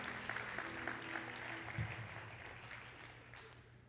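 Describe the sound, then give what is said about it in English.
Applause from a church audience clapping for a group as they leave, a faint, steady patter of many hands that thins out slightly toward the end. “Give them a hand as they go.”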